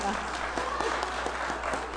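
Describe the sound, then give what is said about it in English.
An audience claps in a dense, steady wash of applause that holds for the whole stretch, with a voice talking over it. “I assume you know what Urbana is, since you're clapping.”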